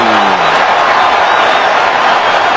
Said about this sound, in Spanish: Y la gente está con Sudáfrica, escuchen al público de Atlanta.